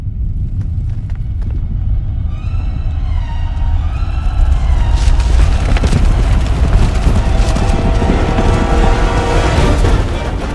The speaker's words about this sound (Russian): Стадо антилоп Гну спрыгивает с обрыва и несется на бешеной скорости по ущелью.